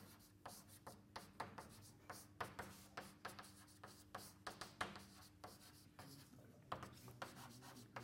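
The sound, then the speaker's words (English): Handwritten notes being scratched out during a physics lecture: many short, dry strokes in an irregular rhythm, fairly faint, over a low steady hum, with no talking. “Good, so let's write this down.”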